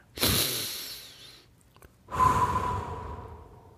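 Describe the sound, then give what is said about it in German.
Two deep breaths at the end of a guided relaxation, each a broad airy rush of inhaling and exhaling lasting over a second, separated by a short quiet gap, with no talk. “Und mach ein bis zwei kräftigere Atemzüge.”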